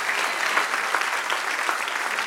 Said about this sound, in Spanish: Del otro aplauso.